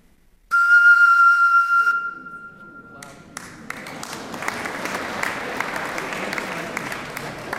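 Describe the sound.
Blowing across the opening of a bottle filled with water gives a hollow, breathy tone, one steady sustained note lasting over a second, followed by applause and whistles from an audience.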